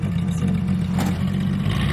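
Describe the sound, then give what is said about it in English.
A car driving off, heard as a steady low engine rumble that holds an even level throughout. “Jim drives off, leaving Kate alone with Oliver.”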